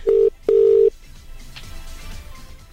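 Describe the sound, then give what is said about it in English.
A telephone number being dialed produces two touch-tone beeps, a short one then a longer one, followed by quiet, low line noise. “Let's dial her up.”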